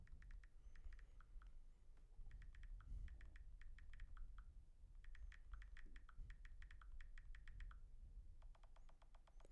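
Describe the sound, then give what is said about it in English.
Typing on a computer keyboard: quiet bursts of rapid, crisp key clicks separated by short pauses, with no voices. “Hold on, let me type this.”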